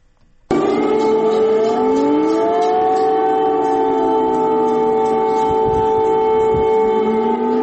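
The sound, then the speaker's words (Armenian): An air raid warning siren sounds in Kyiv, starting abruptly after a brief near-silence and then holding a loud, sustained, steady tone through to the end, with no voices. “Ուկրաինայի մայրաքաղաք Կիևի բնակիչներին այսօր արթնացրել է օթային տագնապի մասին ահազանգող շչակը։”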